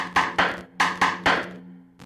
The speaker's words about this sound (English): El paloteo is like you hit the outside of the tambora, you don't hit on the porch, you hit on the outside, and it sounds like this.